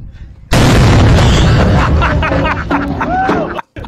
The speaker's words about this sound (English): Dude, that's your grenade simulator. It is? Yeah, it's on the stick.